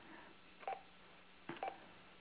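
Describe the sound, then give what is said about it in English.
A telephone number is dialed, giving two short touch-tone beeps over a thin, narrow-band phone line, with faint hiss between them. “Well, I hope I dialed the right number.”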